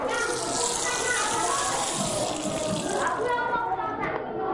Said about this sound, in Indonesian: sekarang giliranmu cuci tangan.